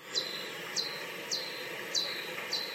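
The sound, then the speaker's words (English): Pipistrelle bat echolocation calls slowed down ten times, sounding like five evenly spaced, high, bird-like chirps, each a quick downward sweep, faint over a soft hiss. “And a different type of bat, a Pipistrellus, has calls which sound like this.”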